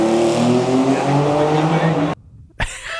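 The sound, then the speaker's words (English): A Benelli TNT 300 motorcycle flies past, its engine a loud, steady whine with strong harmonics. The sound cuts off abruptly, then a sharp burst of noise follows. “Benelli TNT 300 flyby.”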